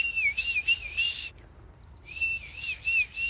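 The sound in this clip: A person whistles an imitation of a bird of prey's call: two high, wavering phrases separated by a short pause, fairly faint, with no speech.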